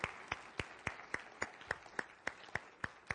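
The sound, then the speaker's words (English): A church audience claps to welcome new visitors: twelve evenly spaced claps in a steady rhythm, fairly faint. “In fact, I see some new visitors here today. Church family, can we put our hands together and welcome them? Welcome.”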